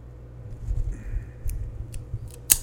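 A cutter clips the tip of a cigar, producing a few sharp, bright snips and clicks scattered over a quiet, low background rumble, with the crispest snap arriving last.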